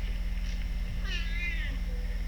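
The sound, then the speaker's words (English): A cat meows once inside a small, cramped box: a single drawn-out meow whose pitch arcs up and back down, faint over a steady low hum. “Get back in your box. The box is barely big enough for that cat.”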